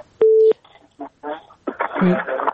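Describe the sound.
A telephone line beeps as a listener's call connects to a phone-in program: one steady, mid-pitched tone lasting about a third of a second, followed by people talking.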